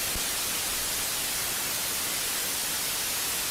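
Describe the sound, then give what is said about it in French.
Television static hisses after the signal drops out, a steady, even wash of white noise with no breaks or change in level. “c'est pas quand t'étais sur la télé puis que c'était, le signal pognait pas.”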